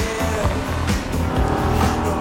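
A car speeding as fast as it can on a snowy road: a loud, continuous engine roar with a pulsing, revving rhythm and a few sharper surges, steady in level throughout.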